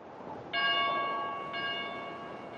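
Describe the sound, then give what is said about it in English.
An alert bell rings out of the ordinary, later in the day than the usual morning bell. Two bright, clear strikes about a second apart each leave a sustained tone that slowly fades over faint background noise. “Then, would this be an alert bell or would this be a specific hour bell? Uh, it's later in the day than the morning bell usually goes off, so this is something out of the ordinary.”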